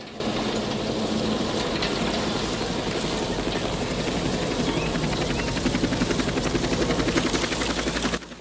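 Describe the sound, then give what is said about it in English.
Helicopter rotor chop and engine whine as the aircraft passes over a tree canopy and comes in to land at a camp: a loud, steady thumping roar that holds for about eight seconds, then cuts off abruptly. “the chopper hoves over the tree canopy and comes into land in the camp”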